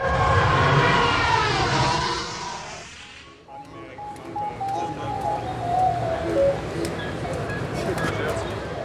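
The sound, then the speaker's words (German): An R2-D2 robot driving past at HeroFest, a fan convention in Switzerland, giving off chirping, warbling electronic whistles that rise and fall amid steady crowd noise and voices. “Schön, R2D2 fährt an uns vorbei.”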